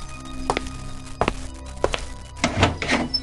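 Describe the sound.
A door being opened at someone's request in a home: a few separate dull thunks, like steps, lead up to a louder, busier burst of knocking and rattling at the end, with no voices.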